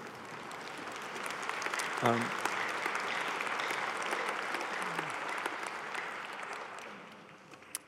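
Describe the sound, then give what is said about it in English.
A church audience applauds after a prayer, giving dense, sustained clapping that holds steady for about seven seconds and thins out near the end, with faint voices mixed in. “we give applause, right, for God's word and his truth.”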